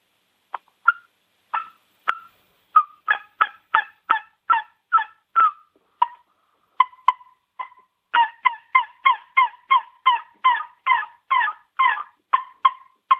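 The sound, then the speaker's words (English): An ARO Loud Lips turkey call is played to imitate turkeys, producing sharp, loud, nasal yelps. A few spaced yelps come first, then after a brief pause a long, quick, evenly paced run of many yelps follows. “This is the ARO2 call. I use this call to make turkeys gobble because it's got a lot of volume, and it sounds so realistic. And this call is called the ARO Loud Lips. Listen to this.”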